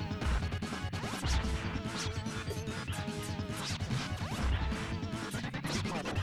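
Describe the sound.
Fighting hits in the video game Teenage Mutant Ninja Turtles: Turtles in Time, many rapid, punchy smashes and thwacks following one another in a busy, loud barrage.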